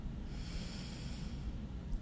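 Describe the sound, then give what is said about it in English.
A single drawn-out intake of breath, soft and steady, fills the whole moment as a quiet, even rush of air with no other sounds. “Breathe in.”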